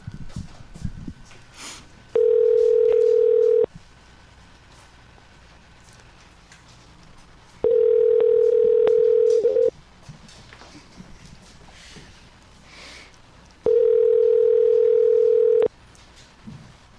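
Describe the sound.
Telephone ringback tone on an outgoing call: three steady, mid-pitched electronic ring bursts, each about one and a half to two seconds long. Long quiet gaps with faint background noise separate the bursts.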